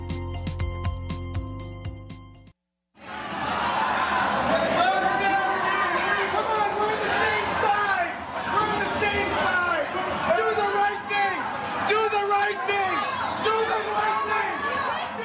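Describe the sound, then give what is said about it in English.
A large crowd of protesters storms the Wisconsin state capitol during the March 2011 Act 10 protests, a dense, loud roar of shouting and chatter that continues throughout after a brief musical sting. “That's the sound of protesters storming the state capitol during the Act 10 protests back in March of 2011.”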